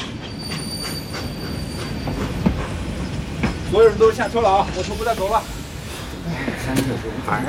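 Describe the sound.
A train rolls along rails with a steady, rumbling clatter and sharp metallic wheel squeals near the middle, the noise holding at an even level throughout.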